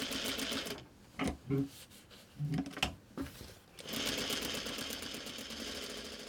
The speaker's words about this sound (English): Once you cut your real fabric, then the sewing process starts.